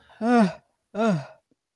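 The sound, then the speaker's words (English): Two short voiced yawn-like exhalations, each a breathy vocal sound that falls in pitch, separated by a brief pause, offered as a way to open up the ears. “Or the yawn. The yawn.”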